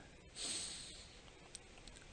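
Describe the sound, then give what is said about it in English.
A slow breath is drawn in through the nose during a guided relaxation, soft and hissy, swelling for under a second before fading into near silence. “Now let's take another deep breath in.”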